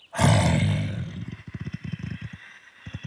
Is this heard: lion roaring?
yes